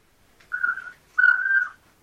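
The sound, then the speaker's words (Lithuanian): Birds singing outdoors: two clear, sustained whistled notes with a steady pitch, the second longer and louder than the first, with quiet between them and no voices. “net ir su tavaisiais kūriniais gyvais, paukščiais, kurie šiek tiek mano dabar dėmesį sklaido”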